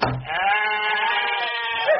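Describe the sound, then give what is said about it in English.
A sheep bleating in the hallways: one long, wavering, nasal bleat that holds steady for about two seconds, loud and clear with no talk over it. “Then perhaps you'd care to see the number of sheep that are living in the hallways. Here.”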